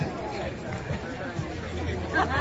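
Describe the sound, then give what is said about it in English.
Crowd at a Little League All-Stars baseball game, a steady babble of many voices talking at once, with no single sound standing out. “And a very excited crowd here today because it's the first action of Little League All-Stars for the year”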